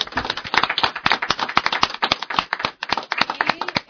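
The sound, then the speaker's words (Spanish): A group in a radio studio breaks into a hearty round of applause, with many quick, overlapping claps forming a lively, uneven patter at moderate loudness. “así que ahora un fuerte aplauso para todas y todos.”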